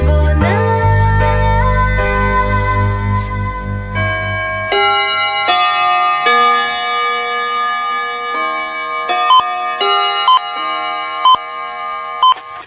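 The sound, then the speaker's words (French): A radio station's hourly time signal: a melodic bell chime of several descending tones that ring on, then four short, sharp high pips spaced about a second apart marking the hour. “Au carillon de Radio Bonheur et au quatrième top, précisément 11h sur les montres qui marchent.”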